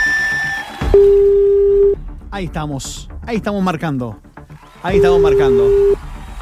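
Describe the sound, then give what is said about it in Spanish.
A telephone call being dialed and placed: two long, steady mid-pitched ringing tones about four seconds apart, with a person talking excitedly between them. “Ahí estamos marcando.”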